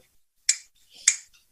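Two sharp, bright clicks come from a pair of bones held between the fingers and shaken by the wrist. The clicks are well separated and sound alone against near silence.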